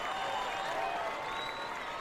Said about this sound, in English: There's smiles, laughs, promises, and then a hand raised, an oath accepted, and cheers.